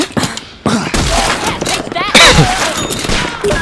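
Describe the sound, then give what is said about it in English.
Shotgun fire in a video game: two sharp, heavy blasts with crackling tails, mixed with other game effects while people talk. “Shotgun.”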